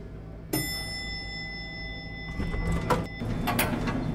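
Elevator sound effect: a bright ding with a sustained ringing tone over a steady hum, followed by a few rushing whooshes of sliding doors.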